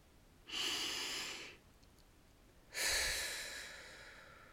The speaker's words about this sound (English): And before we begin, let's breathe together.